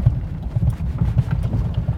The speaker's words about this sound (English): As you can hear from the background, we are here at the farm.